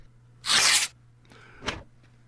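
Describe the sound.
An envelope torn open: one loud, hissing rip lasting about half a second, then a short, fainter second tear.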